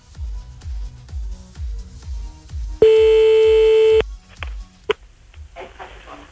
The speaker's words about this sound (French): Voilà, allez, c'est parti, on y va, on appelle maintenant.